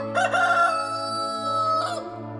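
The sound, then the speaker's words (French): A rooster crows once, a loud, drawn-out cock-a-doodle-doo that rises at the start, holds, and ends with a brief final burst. “Soudain, Pierre entend un coq chanter.”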